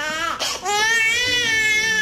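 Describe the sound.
A baby cries loudly in long, sustained wails, broken by a short catch of breath near the start.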